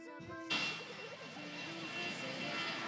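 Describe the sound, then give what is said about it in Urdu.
An airplane races down a runway and takes off as a sound effect in a quiz show. A loud, broad roar begins abruptly about half a second in and holds steady to the end. “Ocean school کی team کو لے کر جہاز رن وے پر دوڑتا ہوا ٹیک of کیا ہے جہاز نے اور آسمان کی طرف بلند ہوا ہے.”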